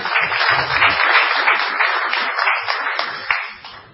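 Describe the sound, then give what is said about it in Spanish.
Audience applause at a live show by a music trio: many hands clap in a thick, continuous patter that stays strong for a few seconds, then thins and fades toward the end. “Qué aplauso fácil, ¿no?”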